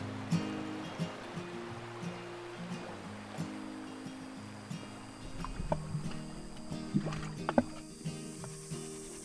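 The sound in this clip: Water splashes and laps as people cool off in the shade at a beach, soft and low at first, then sharper splashes in the second half.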